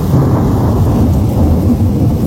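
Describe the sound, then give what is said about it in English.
Thunder rumbles deep and continuous under steady heavy rain as a thunderstorm passes, recorded out a back door onto a deck; the loud low roar stays unbroken throughout, with no separate crack standing out. “A thunderstorm rolls through, heavy rain, lightning, and thunder.”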